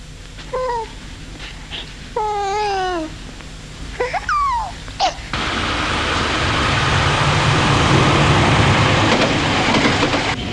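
Loud, steady rumbling roar of a subway train ride sets in suddenly about halfway through and holds to the end, after a few short whistling, chirping tones.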